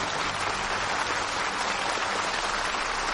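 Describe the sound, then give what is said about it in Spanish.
An enthusiastic crowd applauds at an outdoor evening event. Thick, uniform clapping fills the whole clip at a constant level, with no voices or pauses breaking through. “De noche, los asistentes a un evento al aire libre aplauden entusiasmados.”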